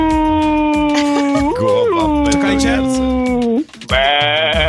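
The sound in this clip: A human voice imitates sheep bleating with a long, drawn-out, wavering bleat that dips briefly, then breaks off before a second bleat starts at a higher pitch.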